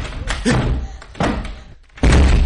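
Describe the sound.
Heavy thuds of a door being forced and broken down in a drama scene: three loud, blunt impacts, each followed by a short rumble, with the last blow the strongest.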